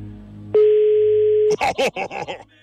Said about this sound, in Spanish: ya estamos marcando a...